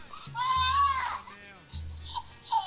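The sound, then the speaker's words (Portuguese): A baby cries in a recording played back from a video, with high, wavering wails. A man's low voice talks over the crying. “ela pegou um vídeo de uma hora de bebê chorando. Deixou isso aqui, ó, tocando de fundo.”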